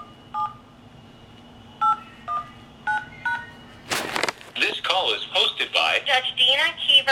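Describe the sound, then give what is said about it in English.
Telephone keypad tones entering an access code on a court call line: five short dual-tone beeps, unevenly spaced, fairly loud, followed by a voice talking. “Please enter your access code ending with the pound key.”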